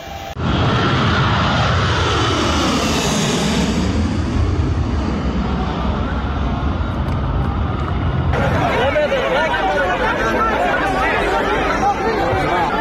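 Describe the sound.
An airplane engine roars at an airport, with people crowded beneath the wings. The engine makes a loud, continuous drone with a sweeping tone that turns harsher and broader partway through, over crowd chatter.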